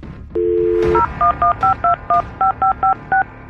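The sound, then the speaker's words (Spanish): A touch-tone keypad dials a telephone number. A steady dial tone comes first, then a quick, even series of short two-note beeps at a similar mid pitch, one per key. “Vamos a marcar aquí al aire”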